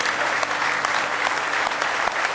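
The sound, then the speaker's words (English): A church audience claps their hands in praise during a morning service, producing a steady, dense and loud wash of applause that holds evenly from start to finish. “Let's give Him a real good hand clap of praise in the house of the Lord this morning.”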